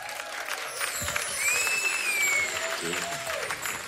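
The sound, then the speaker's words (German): Audience applause for a performer being introduced on stage, a steady, dense clapping texture that swells slightly in the middle and continues throughout, with voices mixed in. “kriegen wir mal Applaus für meinen Bruder Kick.”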